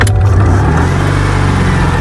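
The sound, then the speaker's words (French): A sky-blue 1970s Citroën 2CV engine hums as the car sets off on country roads through Luberon fields, a loud, steady mid-pitched drone with rumbling low tones and no voices. “On va prendre le volant d'une deux chevaux et parcourir les routes à travers les champs du Luberon. Allez, c'est parti, on y va.”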